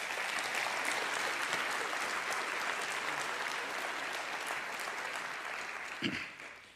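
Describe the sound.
Sustained audience applause welcoming a couple at a missions gathering, a dense even patter of many hands that holds steady, then fades away at the end.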